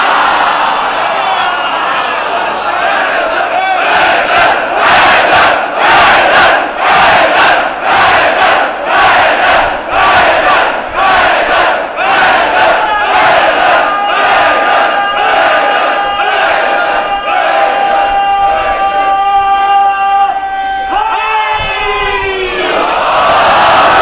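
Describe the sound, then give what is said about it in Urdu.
A large crowd chants a slogan at a rally, loud rhythmic bursts of shouting repeating steadily throughout, giving way near the end to longer sustained cries. “یہ جو آپ کا نعرہ آتا ہے نا، مجھے اپنے دشمنوں کو جواب دینے کے لیے یہی نعرہ کافی ہے.”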